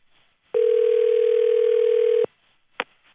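Telephone dial tone while a call is being dialed: a steady, loud, unwavering tone of under two seconds that cuts off abruptly, followed after a pause by a single short click.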